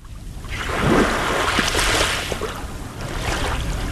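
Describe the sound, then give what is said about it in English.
Waves wash onto a sand beach on Lake Michigan in Shorewood, a suburb north of Milwaukee, in a broad rushing swell that builds and eases, mixed with wind noise and no voices. “That is the sound of Atwater Beach in Milwaukee's North Shore suburb of Shorewood.”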